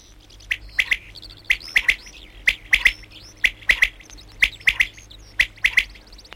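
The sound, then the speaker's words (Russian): Birdsong, the final song of a bird chorus: bright, high chirps in quick pairs and triplets, repeated in about six short phrases at a steady pace of roughly one per second, over a faint low hum. “Кончается птичий концерт. Звучит последняя песенка.”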